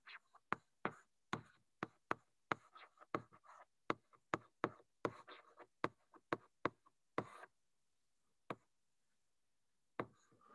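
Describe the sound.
Writing out an equation: many sharp taps and short scratches come in quick, irregular bursts, then a quiet pause broken by a couple of lone taps.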